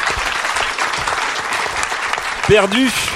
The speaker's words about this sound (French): On applaudit Daz qui est en détresse.